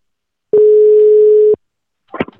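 A telephone ringback tone heard while placing a call: one loud, steady mid-pitched tone lasting about a second, then a short silence and a brief burst of noise.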